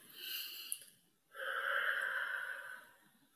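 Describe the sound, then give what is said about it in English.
A faint deep breath: a soft airy breath is followed by a longer, fuller, hissing one that slowly fades. “Get that going. And deep breath.”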